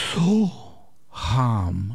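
Two breaths are heard during a yoga-style soham breathing exercise, each a slightly voiced, sighing rush of air. The breaths are separated by a brief silence, with the second longer and fuller than the first.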